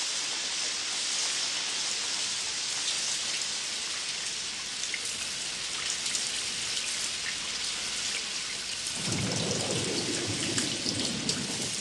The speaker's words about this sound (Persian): وابزانم بارانی چی زوره باره